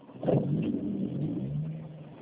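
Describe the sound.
A car being driven gives off a steady low engine rumble and hum that runs throughout, with a slightly louder surge near the start. No voices are heard.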